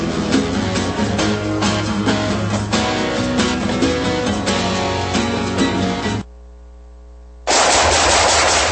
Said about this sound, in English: Nice shooting.